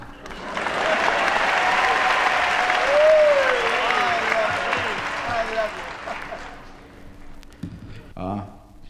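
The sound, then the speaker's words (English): Audience applause welcoming a performer on stage at a talent show, a loud sustained wash of clapping with a whistle cutting through midway, slowly thinning out before a voice speaks near the end. “And please put your hands together for a very big warm welcome, please, to Raymond Scum.”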